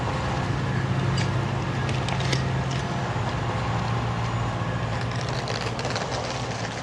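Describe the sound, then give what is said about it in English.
A train pulling away, heard as a steady, broad rumble with a low droning hum that holds throughout and eases slightly toward the end. “He removes her bags from the trunk as the train pulls away.”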